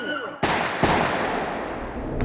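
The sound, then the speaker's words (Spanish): Gunshots fired at a woman from behind in the yard of a country house: a few loud, sharp cracking bursts, each trailing into a harsh, sustained rumble of noise. “Mientras conversa, un hombre se acerca por detrás y le dispara cuatro veces.”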